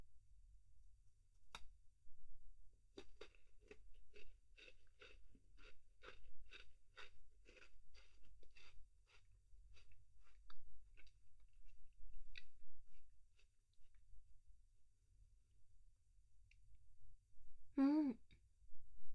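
A snack is chewed and eaten with quiet, crisp, rhythmic crunching bites that repeat steadily and then fade out. A single sharp click comes before the chewing, and a brief breathy sound follows near the end.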